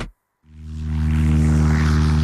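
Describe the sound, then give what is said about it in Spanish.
Propeller engine of a light aircraft flying over Mazaricos: after a brief silence, a deep, steady droning hum swells in loudness and holds as a continuous tone with rushing noise. “En A Vivir a Rías, este sábado, subímonos a una avioneta para descubrir Mazaricos dende o aire”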